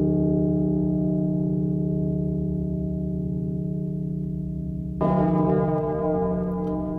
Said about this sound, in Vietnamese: Tiếng chuông lớn phát ra từ trên hòn đảo.